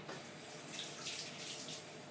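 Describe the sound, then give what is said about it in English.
Tap water runs steadily while hands are washed at a kitchen sink during cooking, a soft, even rushing that stays faint and unbroken throughout. “Right, I'm just going to wash my hands.”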